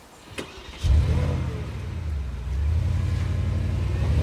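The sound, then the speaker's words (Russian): A black Porsche's engine starts and the car drives away. A faint click comes first, then a loud low engine rumble that grows louder again partway through, with no talk. “Черный Порше с номером Джо 007 уезжает. Бланш смотрит вслед уезжающей машине.”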